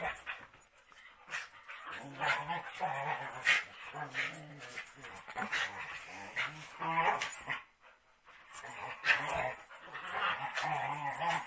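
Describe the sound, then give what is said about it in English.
Dogs play fighting, nipping and growling at each other: low growls mixed with yips and whimpers run almost continuously, with a brief lull before the scuffle picks up again. “sorry, I wanted you guys to hear the dog fights, because it's cute.”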